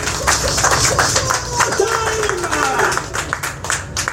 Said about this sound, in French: Est-ce qu'on peut acclamer pour WAPI?